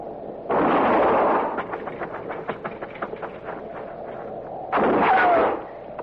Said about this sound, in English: I'm going to fire and roll away, maybe draw a shot.